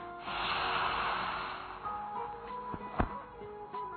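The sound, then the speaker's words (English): Slow exhale through the nose during alternate-nostril breathing practice: a steady, airy hiss lasting about a second and a half that gradually softens, followed by quieter breath noise and a brief faint click. “Now left nostril, close with the left thumb, inhale right. And hold breath 1, 2, 3, 4, 5 and exhale.”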